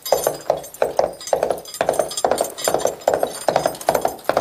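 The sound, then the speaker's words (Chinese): Two teachers imitate a horse's hooves clip-clopping, making many crisp, rhythmic clicks in a steady repeating pattern of grouped beats, like a trotting horse, with no talking. “示范一下马蹄子声。 我们把眼睛闭起来啊，想象一下啊，听这个是不是马的声音？”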